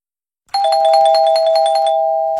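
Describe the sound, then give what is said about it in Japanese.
A quiz deadline chime rings out as a quick run of many bright, bell-like notes, then settles into one sustained ringing tone that slowly fades, heard alone with no voices. “くじクイズ締め切りのチャイムが鳴りました”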